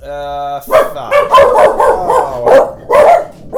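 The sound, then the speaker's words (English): Dogs bark in a loud run of sharp, yipping barks that come in quick, uneven bursts. A brief steady tone is heard at the start. “these goddamn dogs.”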